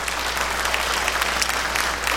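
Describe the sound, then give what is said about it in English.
A church audience claps its hands in applause, a dense and steady crackle of many hands that holds at an even level throughout. “And why don't you put your hands together and welcome in our online congregation.”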